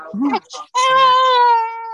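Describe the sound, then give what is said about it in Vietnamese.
A person crying, with a few short vocal sounds followed by a long, sustained wail that holds a steady pitch and fades slightly at the end. “cái gì vậy? Ai khóc vậy? Tiếng ai khóc vậy?”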